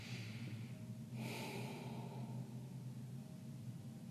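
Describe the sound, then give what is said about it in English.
During a breathwork exercise, a single forceful breath is pushed out as a faint, airy rush lasting about a second, over a low steady hum. “Next time you press the breath out, just press the breath out”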